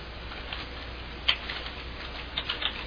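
Faint typing on a computer keyboard: a few soft, scattered clicks at irregular intervals over a quiet hiss, with no talk.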